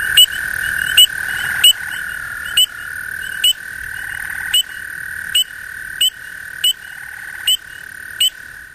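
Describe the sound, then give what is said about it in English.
Spring peeper frogs calling in the Ozarks in spring: a regular series of sharp, high peeps about one per second, ringing over a steady, continuous high-pitched chorus drone. “Let's listen to the spring peeper's call.”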